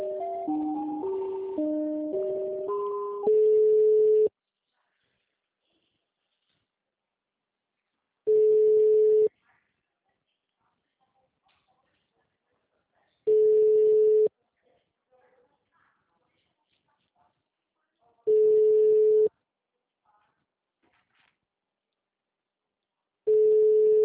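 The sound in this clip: Telephone tones play while a call is transferred: a quick run of short dialing beeps at varying pitches, then five long steady beeps of one pitch, spaced about five seconds apart, with silence between.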